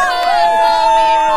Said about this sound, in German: Das, was ihr da gerade hört, das ist die Uniliga.